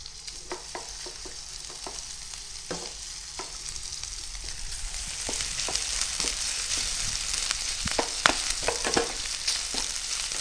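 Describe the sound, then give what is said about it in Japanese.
Bacon frying in oil in a frying pan, a steady sizzle broken by many sharp crackles and pops that grow a little louder and busier over time. “フライパンをぐるっと回して油を全体に行き渡らせたら、まずはベーコンから炒めましょう。”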